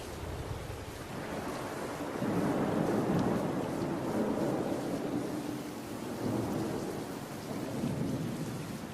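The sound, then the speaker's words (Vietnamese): Thunder rumbles through a thunderstorm with heavy rain and wind. A steady, dense roar of rain holds throughout, with the rumble swelling loudly in the middle and again near the end. No voices are heard. “Mưa gió cuồng phong bên ngoài tựa như ủng hộ chuyện này.”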